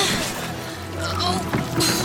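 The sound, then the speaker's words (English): Oars dip and pull through water as a rowboat is rowed, with a steady wash of sloshing and one sharper splash late on, all fairly loud and continuous. “They're looking for another boat. Keep rowing.”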